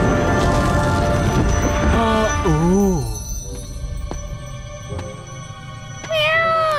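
A cat meows a few times, its curving calls bending up and down in pitch over a dense, noisy background, with one more bright meow near the end.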